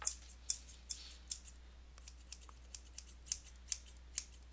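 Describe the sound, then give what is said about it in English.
Scissors cutting, played as a guess-the-noise game: many quick, crisp snips in an uneven rhythm, faint and high-pitched, with no talk over them. “Scissors.”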